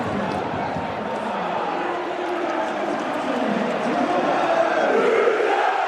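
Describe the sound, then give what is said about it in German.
Football stadium crowd roaring in celebration after a Rot-Weiß Essen goal from a free kick, a dense, continuous wall of cheering and shouting that stays loud throughout and swells slightly toward the end. “Hier ist alles hochgeflogen nach einem Freistoß für Rot-Weiß Essen und dem Tor von Torben Müsel. Mal kurz reinhören.”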